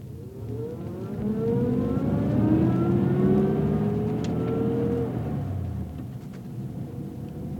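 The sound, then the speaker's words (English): A chauffeur-driven Rolls-Royce car pulls away with a sustained engine drone whose pitch rises, then swells and gradually eases off, with no talking. “I wasn't expecting a lady, or a Rolls complete with chauffeur.”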